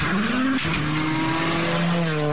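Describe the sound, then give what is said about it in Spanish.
Car engines revving at full throttle with a loud, sustained racing whine, the pitch climbing early on, then jumping and holding high and steady. “Se encienden los motores. se prende la pasión y pisamos el acelerador a fondo.”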